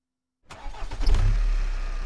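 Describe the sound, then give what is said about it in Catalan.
A car engine starts in a parking garage: after a moment of silence the starter cranks, then the engine catches and settles into a steady, low, even idle. “Vaig arrencar el cotxe i vaig sortir del pàrquing.”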